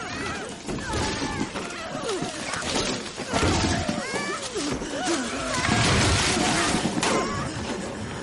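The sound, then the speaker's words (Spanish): A hot-air balloon crashes into treetops in a dramatic scene. Rough crashing, rustling impacts continue throughout, with shouting voices over them. “El globo choca con las copas de los árboles.”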